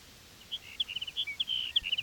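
Sage sparrow song from a colony: a quick series of thin, high, faint chirping notes that repeat irregularly over steady background hiss.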